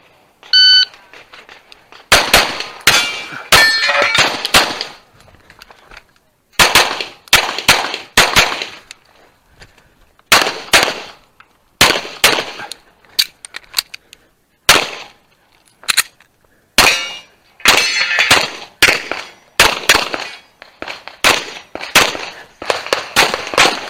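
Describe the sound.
A short electronic beep starts a shooting competition stage, followed by many sharp gunshots fired in rapid strings separated by brief pauses.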